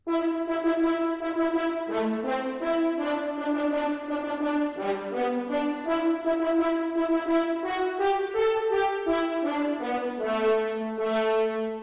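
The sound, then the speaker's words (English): French horns play a sea-shanty folk tune in sustained, mellow, overlapping notes that move steadily up and down through the melody, loud and unbroken from start to finish, with no talk. “What Shall We Do with the Drunken Sailor, played in the French horns.”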